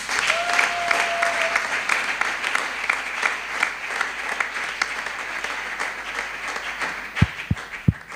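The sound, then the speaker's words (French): A church audience at a youth gathering applauding: steady, full clapping throughout, with a brief sustained whistle-like tone near the start and a few loud low thumps toward the end. “est-ce que nous pouvons acclamer pour la gloire de notre Dieu? Aide-moi à acclamer très bien.”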